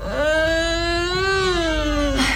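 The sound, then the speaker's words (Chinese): A baby cries in one sustained, steady wail that climbs slightly in pitch and then sinks toward the end. The cry is loud and tonal and is heard on its own. “别哭了，别哭了，额吉在这儿呢。”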